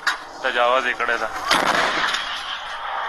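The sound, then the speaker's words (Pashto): Homemade artillery cannons fire from Kunar toward the Pakistani side, a sudden heavy boom cracking out amid voices of people talking nearby. “په کونړ کې د طالبانو ځواکونه پر پاکستاني لوري د دیسي توپونو ډزې کوي”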